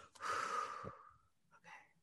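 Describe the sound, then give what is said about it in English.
A big breath: one long, airy inhale is followed after a pause by a shorter, softer breath, both faint and breathy. “Wait, let me do a big breath. That was big.”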